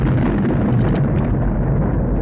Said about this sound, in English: The people on the ground hear the boom. They think it might be the noise signaling his death, that somehow he's just exploded up there. They don't know what could go on when you're trying to break the sound barrier.